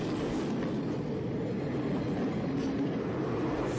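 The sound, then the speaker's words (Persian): A train passes close to the track: a continuous rumbling, rattling roar of rail cars that stays loud and steady from start to finish, with no voices. “قطار از جلوشون رد میشه.”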